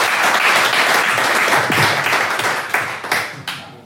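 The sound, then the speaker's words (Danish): Applause from an audience welcoming a newly elected member of parliament onto the stage: dense, loud clapping that slowly thins out, ending with a few sharp, separate claps. “Og vi har en stående her. Giv stor hånd til Carl Valentin.”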